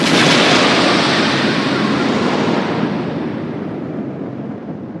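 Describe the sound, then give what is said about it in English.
A comedy explosion sound effect, meant as a person blowing up. It is a loud, dense roar that hits at full force and slowly decays over about five seconds. “If you say Banksy 3 times in a row, then he explodes.”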